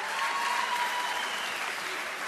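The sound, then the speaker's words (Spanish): An audience applauds to welcome a bandoneon player at a rock and tango show. Dense, uniform clapping holds steady throughout the short burst. “Tomás de Bandoñón, un aplauso, bienvenido.”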